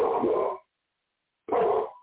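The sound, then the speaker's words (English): Dog barking indoors: two rough, loud barks separated by a clear stretch of silence. “We got somebody that moves up there and he's just barking.”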